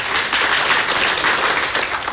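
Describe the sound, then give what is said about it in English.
A church audience giving a hand clap of praise after a baptism testimony, a loud, dense burst of applause that holds steady and tapers slightly at the end. “The power of a testimony, I think that deserves a hand clap of praise.”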